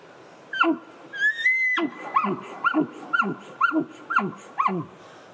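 A hunter imitates an elk bull's chuckle call: a short high note, then a long sustained whistling tone, followed by a run of about six rhythmic, guttural grunting chuckles at an even cadence.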